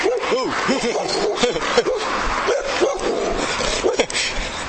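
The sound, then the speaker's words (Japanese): A dog barks in a rapid series of many short, high-pitched yapping barks over steady, loud background noise. “お、ワンコがいるね。”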